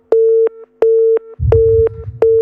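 A busy tone sounds after a telephone call line drops: four short, steady mid-pitched beeps at an even rhythm, with a brief low rumble between the later beeps.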